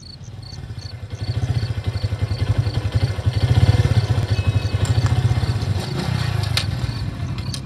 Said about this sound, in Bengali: নীলয় আবার bike start করলো